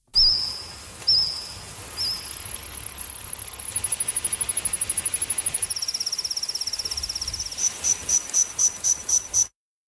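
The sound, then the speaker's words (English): Recreated calls of Jurassic-era insects: high, cricket-like tonal chirps that give way to fast trains of pulses. Later the pulses thin into a few separate, evenly spaced chirps. “a new study that recreated the sounds made by various species of insects during the Jurassic era”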